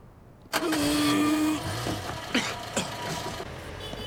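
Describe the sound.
A car engine cranks and catches with a sudden loud burst, then runs steadily at a strong, even hum before settling to a quieter idle, with a couple of brief knocks afterward and no voices.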